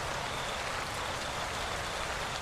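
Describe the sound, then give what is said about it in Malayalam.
Rain falls on a concrete courtyard, a steady, dense hiss of drops striking hard ground that holds evenly throughout, with no voices present. “വീടിനു പുറത്ത് മഴ ചാറി തുടങ്ങിയിരിക്കുന്നു. Concrete ഇട്ട് ഉറപ്പിച്ച മുറ്റത്ത് മഴത്തുള്ളികൾ തല്ലി അലച്ച് വീഴുന്നു.”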